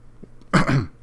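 A single short cough with throat clearing, loud and abrupt, rising out of near silence and lasting under half a second before fading.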